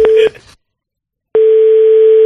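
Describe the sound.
A telephone ringback tone sounds after a number is dialed. The steady, mid-pitched tone cuts off, leaves about a second of silence, then resumes loudly and evenly.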